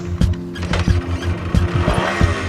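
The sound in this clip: A Sachs moped being ridden, its engine giving a low, steady harmonic hum broken by rhythmic bursts, with squeaky, squealing mechanical noise on top throughout.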